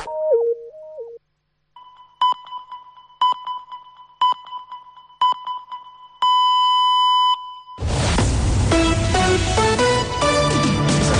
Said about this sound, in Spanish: Són les senyals horàries corresponents a dos quarts de dues d'aquest dimarts